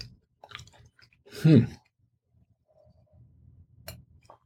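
Faint, soft chewing on grilled asparagus, with one louder burst of mouth sound near the middle among scattered quiet clicks and mouth noises.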